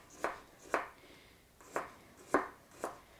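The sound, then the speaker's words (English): Five crisp chops of a ceramic knife through a quartered carrot, slicing it into small pieces; the faint, sharp knocks come at a loose, uneven pace with quiet between them and no voices. “quartered carrot, and then I'm going to chop that up.”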